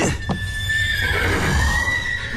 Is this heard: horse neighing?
yes